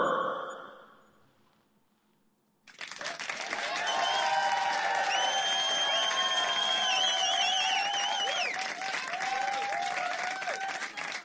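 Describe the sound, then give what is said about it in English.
Canned studio audience applause breaks out after a brief quiet moment, a dense, steady clapping that holds at an even level to the end. “Thank you, canned studio audience.”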